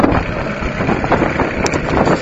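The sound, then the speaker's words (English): An outboard motor runs on a small dinghy, giving a continuous dense rumbling drone that stays steady at the same loudness throughout. “Now the wind's picking up also, I gotta have the motor running. I'm sitting in my boat right now and in a little dinghy.”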